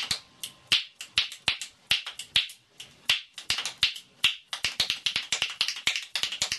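Fingers and hands snap and slap out digital percussion music: many crisp, sharp clicks in a quick, driving rhythm that grows denser toward the end, heard alone.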